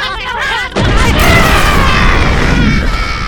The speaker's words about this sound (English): I'm going to blow them up with a bomb.